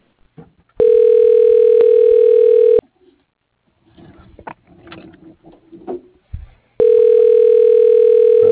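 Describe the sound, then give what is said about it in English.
Ringback tone from an automated telephone system while it dials an extension: a steady, buzzy tone holds for about two seconds, then a gap with faint muffled noises, then the tone starts again. “Dialing Nathan Moore.”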